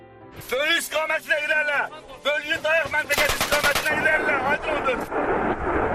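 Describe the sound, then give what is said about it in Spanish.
Rapid bursts of machine-gun fire from the war between Armenia and Azerbaijan over the mountainous Nagorno-Karabakh region. Voices are heard at first, then loud, dense, rattling volleys fill the second half. “Sonidos de la batalla, de las bombas, ráfagas de ametralladoras son Armenia y Azerbaiyán, que se disputan el territorio de Nagorno-Karabaj.”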